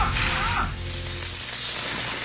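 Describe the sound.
Smash burgers sizzling, a dense, steady hiss and crackle of frying beef that runs loud and continuous for the whole stretch, with a low tonal hum underneath.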